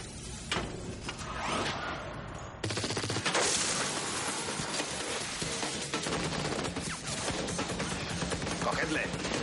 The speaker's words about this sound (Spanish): De pronto los hombres de John entran en la sala y disparan desde abajo.